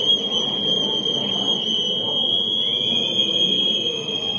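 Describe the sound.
Many whistles shrill in steady, piercing tones above constant crowd noise at a protest on the 5 October anniversary, where demands for journalists' rights and safety are read out. The whistling holds loud and unbroken throughout.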